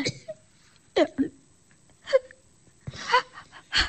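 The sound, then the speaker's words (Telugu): A woman crying and sobbing: a few short, breathy whimpering bursts with wavering pitch, separated by quiet gaps, ending in a fuller sob. “ఎందుకే ఏడుస్తున్నావు?”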